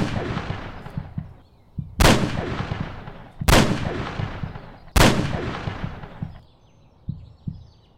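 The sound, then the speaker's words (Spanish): Gunshots fired at a fence: three loud, sharp cracks with long rumbling decays come at even intervals, with a few softer knocks and thuds between and after them. “Tienes que disparar a la barda. No me apuntes a mí”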